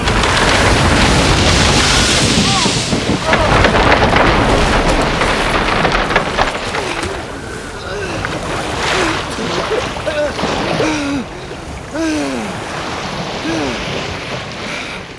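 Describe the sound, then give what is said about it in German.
Sea waves breaking on rocks during a thunderstorm, a loud, continuous roaring wash of surf with heavy rumbling bursts like thunder throughout. “Das Gewitter dauert fort. Die Blitze zischen entfesselt wie eine Brutschlange. Offenbar bricht sich das Meer an Felsen!”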